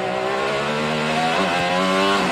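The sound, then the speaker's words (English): Kyle Kirkwood's IndyCar race car screams along the Detroit street circuit, a loud, steady high-revving engine whine whose pitch dips briefly near the middle and then climbs back. “That's driver Kyle Kirkwood ripping his IndyCar around Detroit back in May. It's one of the street circuits on the IndyCar Championship's schedule.”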